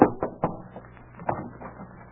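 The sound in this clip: Knocking on a cabin door aboard a ship: a few sharp, evenly spaced raps at the start, then fainter taps, fairly quiet and with no voices.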